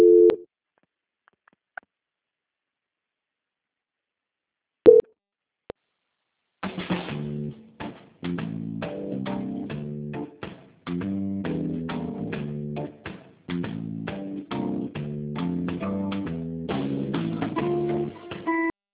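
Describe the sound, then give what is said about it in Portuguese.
Telephone line tones during a call transfer: a short beep at the start and another near five seconds, then a continuous run of patterned, melodic electronic tones that fills the rest of the line, with no talk. “Transferência.”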